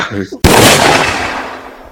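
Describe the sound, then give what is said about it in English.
A single loud gunshot fired into someone's foot bursts out after a brief snatch of speech, its sharp crack trailing into a long, slowly fading rumble. “Well, then how about I balance that out and shoot the other foot?”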